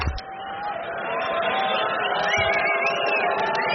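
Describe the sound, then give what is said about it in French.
An audience waits in a darkened hall before a rock concert, filling the space with a steady, dense murmur of many voices chattering together. “Et vous entendez le public qui patiente ici, la scène est plongée dans l'obscurité.”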